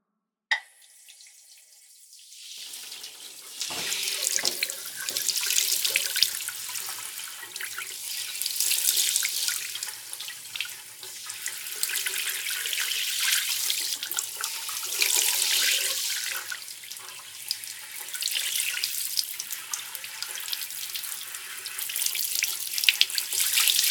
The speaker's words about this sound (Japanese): 頭はさっきスタイリングで洗ったから、軽めに洗うとしよう。